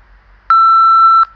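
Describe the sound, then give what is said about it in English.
A single steady voicemail beep, a clean mid-high electronic tone lasting under a second with a sharp start and cutoff, heard alone against near silence. “Pause this audio after the beep sound and say out loud what you want to say.”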